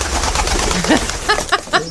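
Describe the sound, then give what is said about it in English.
A carrier pigeon coos: a few short, throaty, low-pitched coos come in quick succession, loud and clear against a soft background hiss. “First, the carrier pigeon.”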